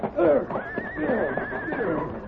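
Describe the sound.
A horse neighs in one long, wavering whinny that holds a high, trembling pitch for over a second, loud over a man's voice as he tries to calm and slow the animal.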